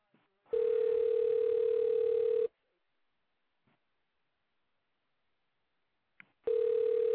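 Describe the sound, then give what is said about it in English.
Ringback tone of a phone call to a pizzeria: a long, steady buzzing ring, then a few seconds of near silence before a second ring begins at the very end. “Yes, I am ordering a pizza. Hopefully they'll answer, which they should.”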